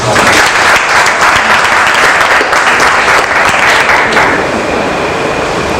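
Loud, sustained applause from a crowd acclaiming God at a religious gathering, a dense steady roar of clapping that carries on for the full length with only a slight easing near the end.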